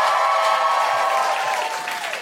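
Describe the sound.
Comedy show audience applauding as guests are welcomed onto the stage: dense, steady clapping that holds evenly and eases slightly toward the end.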